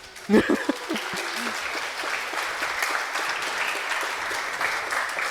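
Audience applause opening a conference, FrostCon 20; a sharp burst of clapping at the start settles into steady, dense clapping that holds at an even level for several seconds.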